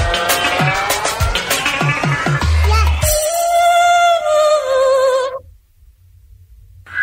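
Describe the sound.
A car engine revs hard with squealing tires at an event with cheering fans, a loud, dense roar that settles into a steady high whine for a couple of seconds, then cuts off abruptly to a low rumble.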